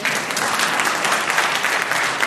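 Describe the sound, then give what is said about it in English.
Audience applause at a panel debate on technology: a loud, dense and unbroken stretch of clapping from a crowd, steady in level from start to finish. “Are you allowed to applaud?”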